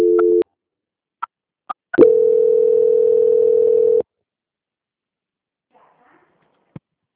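A telephone line tone during a call transfer begins with a short beep, then a few clicks, then a steady tone of about two seconds, followed by near silence with a faint click.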